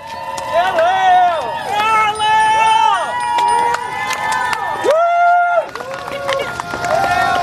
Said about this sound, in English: That was Lael being cheered across the finishing line late last night by her friends and family.